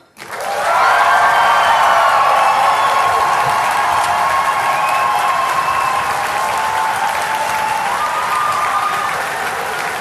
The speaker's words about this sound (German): Und jetzt stellt euch diesen Applaus vor und gebt diesen Applaus nochmal den Chapelites. Der muss schon lauter sein als gerade eben.